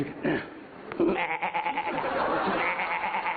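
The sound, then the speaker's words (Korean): A human voice imitates goats bleating, a kid and then a mother goat, in wavering, nasal bleats that run almost continuously through a noisy, muffled recording. “여기는 새끼 염소 소리고야 그 다음에 그 엄마 염소네”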